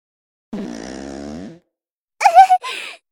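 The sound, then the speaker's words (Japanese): A fart sound: a sustained, buzzy, low tone lasting about a second, then after a pause a shorter, rougher burst of flatulent noise. “どんどんおならが出てしまいます。”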